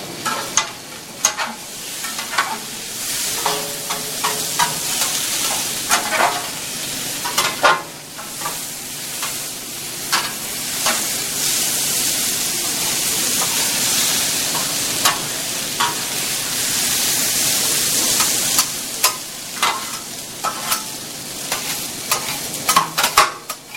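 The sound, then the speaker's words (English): Eggs frying on a hot griddle grill give a steady bright sizzle, broken by many sharp scraping taps and clicks from a utensil working the cooktop; no one speaks over it. “You gotta make sure this grill is really, really clean, because the eggs will stick.”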